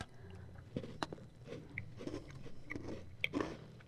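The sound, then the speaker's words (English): Faint crunchy biting and chewing of a butter cookie, a shortbread, with irregular crisp crackles over a low, steady background. “This tastes a lot like those cookies that come in that blue tin. The tin. Yeah. Mm-hmm. This needs to be a butter cookie. This is a butter cookie.”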